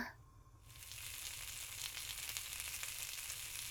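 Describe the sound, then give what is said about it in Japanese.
Meat sizzles as it grills: a faint, steady crackling hiss that begins after a short quieter moment and carries on evenly to the end. “よし、じゃあ焼くよ。お肉お肉っと。”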